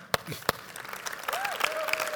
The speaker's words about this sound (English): wherever you are, we'd like to give you a big applause.